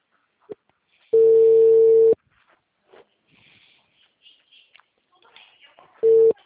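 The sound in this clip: Telephone busy signal after a number is dialed: a loud, steady mid-pitched tone held for about a second, a quieter gap with faint scattered sounds, then a second, shorter burst of the same tone.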